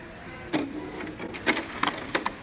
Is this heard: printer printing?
yes